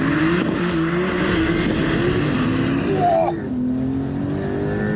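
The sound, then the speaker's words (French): A car's engine at full throttle during a launch-control start on a wet, slippery track. A loud, sustained roar holds high revs, then briefly breaks and drops to a lower note as it shifts up. “Donc, pied à fond sur l'accélérateur. J'ai le petit affichage hold qui me dit que je suis en procédure. Launch control, c'est parti, chef.”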